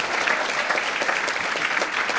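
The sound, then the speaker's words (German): Loud, steady applause from an audience after an on-stage talk, a dense continuous patter that holds at an even level throughout. “Einen Applaus für Nils.”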